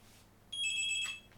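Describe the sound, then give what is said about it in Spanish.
An incoming call sets off a telephone ring: one bright electronic ring burst of high, layered, buzzing tones that lasts under a second, then stops, over faint background hiss with no talk. “Ahí están llamando de nuevo.”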